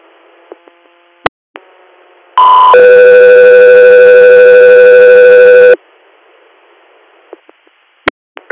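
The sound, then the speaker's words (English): Two-tone radio paging alert summoning an air medical crew: a short tone switches into a longer, loud, steady tone lasting about three seconds. Faint radio hiss and a few sharp clicks surround it. “Guthrie Air, stand by for tones.”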